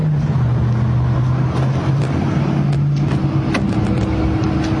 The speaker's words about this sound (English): time for me to take my driverless ride to run my errand. Come on with me.